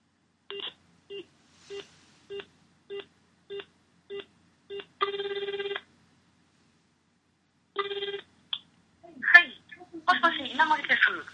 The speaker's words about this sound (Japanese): 電話をしてみたいと思います。